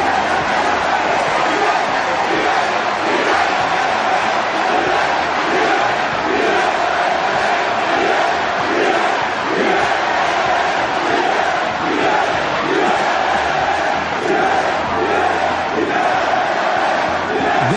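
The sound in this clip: A crowd celebrates with a loud, unbroken roar of many voices, cheering and shouting together. Repeated chant-like swells rise through it from start to finish.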